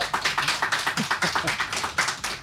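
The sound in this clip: Live studio audience clapping together in a steady, fast, regular rhythm of many claps, loud and alone.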